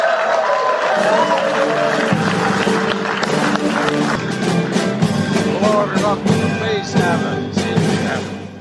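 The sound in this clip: Loud crowd applause and cheering welcome Steph Curry and President Joe Biden onstage at a Golden State Warriors event, a thick, continuous wash of clapping with sharper claps and whoops poking through, sustained without pause.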